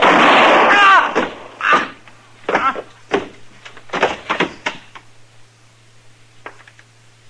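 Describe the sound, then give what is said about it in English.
A gunshot in a Western standoff, a loud blast at the start followed by several sharp, separate knocks and clacks that fade into quiet. “He won't have to stand trial. He's not dead, Chester. I aimed high on him.”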